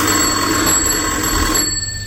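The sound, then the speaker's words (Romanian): A telephone rings steadily throughout, a sustained electric bell tone with a bright, buzzy edge and no pauses or voices. “Telefonul.”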